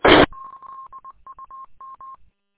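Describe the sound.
Radio call tones: after a short opening burst of noise, a rapid series of short, steady, mid-pitched beeps plays in quick succession, with no talk over them.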